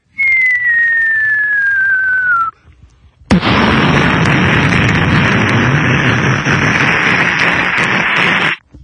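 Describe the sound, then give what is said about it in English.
A voice imitates a falling bomb and its blast: a long whistle slides steadily down in pitch, a brief pause follows, then a loud, hissing roar of explosion noise holds for several seconds before cutting off. “One of them. A bomb mouth effect.”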